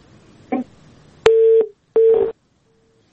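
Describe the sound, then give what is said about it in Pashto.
Telephone disconnect tones after a call drops: a brief click, then two loud, steady mid-pitched beeps of equal length with a short gap between them, and a fainter tone trailing after. “متاسفانه اړیکه یې پرې شوله.”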